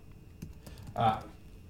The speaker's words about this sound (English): I'm writing down the show notes.